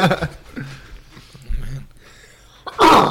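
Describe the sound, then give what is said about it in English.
A person lets out one sharp, loud cough near the end, after a stretch of quieter low sounds. “I wasn't going to sneeze, it was a cough.”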